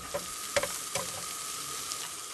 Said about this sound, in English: cooks a midnight breakfast of bacon and eggs by the glow of gas lanterns.